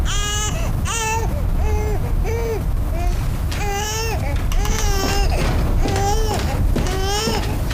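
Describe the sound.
Crying with a high, infant-like wail, heard as many short sobbing bursts separated by brief gaps, steady and fairly loud over a constant low background noise, with no speech.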